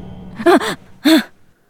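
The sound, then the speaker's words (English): A woman gasps in cold air as she jolts awake and sits up, three breathy voiced gasps: two quick ones back to back, then a longer one after a short pause, loud and alone. “She gasped in the cold air and sat up.”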